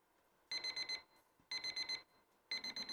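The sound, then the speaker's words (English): Electronic timer tone used in a candidate debate to signal that speaking time is up: high, rapid beeping in three evenly spaced bursts of several pulses each, fairly faint and alone. “there will be a tone when the time is up. The tone sounds like this.”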